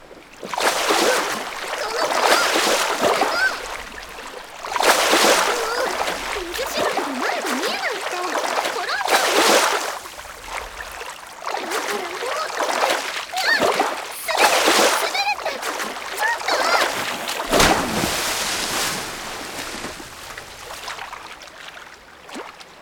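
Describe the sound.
Water splashed during a playful water fight: loud, rushing bursts of splashing rise and fall in repeated surges, with brief lulls between the heavier throws.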